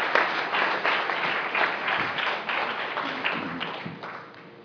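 An audience applauds to welcome a pastor at a church service, a dense, steady wash of clapping that tapers slightly toward the end.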